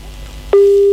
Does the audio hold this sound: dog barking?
no